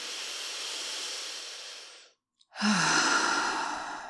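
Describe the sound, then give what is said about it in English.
A big, deep breath taken during a guided breathing exercise: two long, airy hisses of breath separated by a brief pause, the second one fuller and louder, with no talk. “Okay, so let's take a big deep breath into that.”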